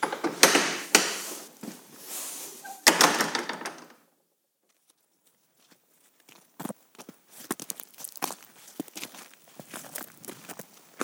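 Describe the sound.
Footsteps of walkers on a fell path near farms: a few louder bursts early on, a quiet gap, then many soft steps in an uneven rhythm.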